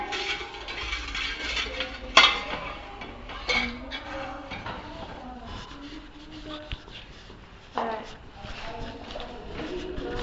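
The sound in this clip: Pots and dishes clatter as they are handled for washing. A few sharp clinks and knocks stand out over a soft, ongoing jumble of kitchen handling, with voices talking throughout.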